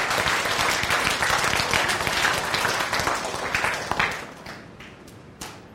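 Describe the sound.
Audience applause: dense, steady clapping from many hands holds for several seconds, then thins out and fades, ending with a few scattered last claps.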